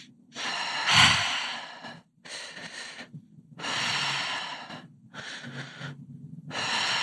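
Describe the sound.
During a breathwork exercise, a person breathes slowly and deeply in long, airy inhales and exhales, about five breaths separated by brief silences, with no talk.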